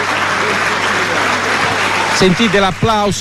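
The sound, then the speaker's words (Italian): An audience at an event applauds in a dense, steady wash of clapping, and a voice speaks over the final second. “Sentite l'applauso.”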